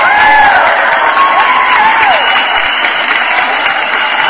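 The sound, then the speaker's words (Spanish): Loud, sustained applause from an audience, a dense wash of clapping, with a few cheers or whistles rising over it early on. “Sus aplausos, por supuesto, Tavo.”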